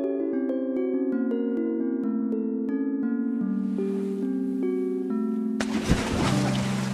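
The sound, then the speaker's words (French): A sudden broad splash as a bed carrying Pop and his friends plunges into a shark-filled ocean, bursting out near the end over bright, playful music that continues underneath. “Mais catastrophe, le lit plonge au milieu d'un océan rempli de requins.”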